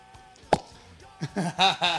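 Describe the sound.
A cork pops once, sharply, from a bottle of cheap red wine, followed by voices talking.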